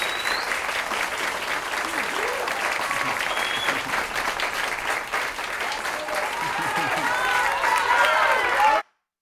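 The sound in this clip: Audience applause erupts after a performer takes a bow on stage, a dense, steady wash of many hands clapping that holds loud and even for about nine seconds before stopping abruptly.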